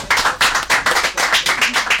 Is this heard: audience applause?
yes